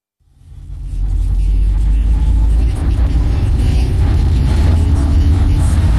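Engine rumble heard from inside a car while driving, loud and low, swelling in over the first second and then holding a steady, dense drone to the end.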